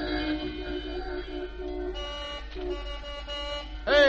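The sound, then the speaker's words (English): Car horns honk in overlapping, sustained blasts with bright, buzzy tones, and a louder, sharper honk bursts in at the very end. “Hey, listen to all that honking.”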